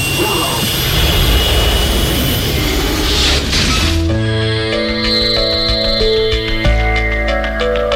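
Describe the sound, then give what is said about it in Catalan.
A spaceship takes off with a loud, broad, jet-like roar that runs steadily for about four seconds, then gives way to a sustained musical passage. “Som a punt d'enlairar-nos amb la nau La Fall Lluna. 3, 2, 1...”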